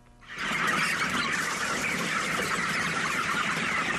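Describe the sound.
Chickens cluck in a dense, steady chorus, about 2000 birds kept in a large hall with many windows on a poultry farm in Khost. The loud, continuous clamor starts after a brief quiet moment and carries on without talk.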